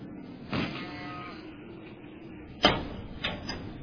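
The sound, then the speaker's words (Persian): A door is opened, with a soft rattle early on and later a sharp knocking clack followed by a smaller bump, all over a quiet steady background. “درو باز کنیم، درو باز کنیم. آقا، آقا ما نمیخوایم از اینجا بریم. حالا بیا درو باز کن تا بهت بگم برادر من.”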